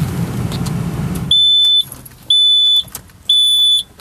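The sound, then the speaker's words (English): An alarm goes off in three loud, high-pitched electronic beeps, each about half a second long and spaced about a second apart, following a stretch of low rumbling noise. “Sorry, that's my alarm. I apologize.”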